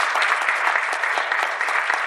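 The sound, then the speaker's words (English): Audience applause at a community gathering, honoring a youth who is building a fire ring at a school and church. Dense, steady clapping fills the whole clip at an even level, with no pauses or voices on top. “So let's give him a round of applause.”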